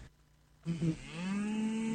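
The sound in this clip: A cow moos once. The loud, low bellow starts with a short wavering onset, then settles into a long, steady held tone that runs to the end.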